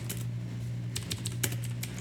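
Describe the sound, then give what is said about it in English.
Fast clicking on a computer keyboard as a definition is typed out, with quick irregular bursts of light keystrokes over a low steady hum, with no voices. “I'm going to go ahead and just type out the definition right here”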